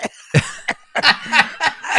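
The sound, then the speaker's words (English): A rapid series of sudden, harsh coughs breaks out in quick, uneven bursts, fairly loud and with little pause between them. “I had one of those coughs, instantaneous coughs. So I was opening my mouth, and I was talking, and all of a sudden,”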